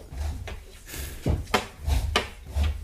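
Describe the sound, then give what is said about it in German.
Wooden scraping, rubbing and dull knocks sound as a six-string guitar is taken out of a cupboard, with a few separate shuffling bumps and no talk. “Schieb das Zelda-Kostüm beiseite und hol die Gitarre aus dem Schrank.”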